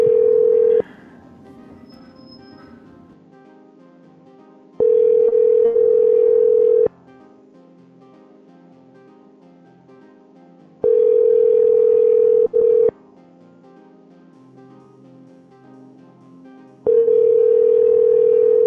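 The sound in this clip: Ringback tone of an unanswered telephone call, a steady mid-pitched electronic tone repeating in loud two-second bursts separated by long quiet gaps, four bursts in all, the first and last cut short.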